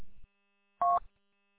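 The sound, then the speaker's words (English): A telephone keypad sends a single dialing tone: one short, steady, two-pitched beep, preceded by a brief low rumble, with near silence around it. “I was trying to dial”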